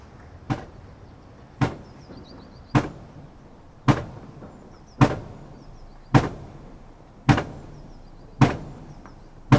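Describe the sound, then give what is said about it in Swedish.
Heavy pile-driving blows for a wind turbine foundation: nine sharp, evenly spaced strikes about a second apart, each a loud impact with a short decaying ring over a low rumbling background. “Ska vi höra ljud när man pålar inför bygge av vindkraftverk?”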